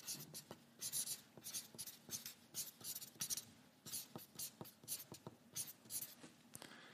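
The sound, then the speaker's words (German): Handwriting on paper, with many short scratchy pen strokes in quick, uneven bursts and brief pauses between them. The scratching stays faint and continues steadily throughout, with no voices. “Und da ich nicht so gut malen kann wie euer Pastor, schreibe ich mir.”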